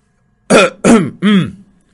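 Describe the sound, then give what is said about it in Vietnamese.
A dry cough, deliberate throat-clearing in three harsh, raspy bursts, each loud and quickly trailing off, heard alone without talk. “Cửu Phong cũng có chút nhìn không được, cố ý ho khan hai tiếng, ý bảo đồ đệ của mình thu liễm một chút.”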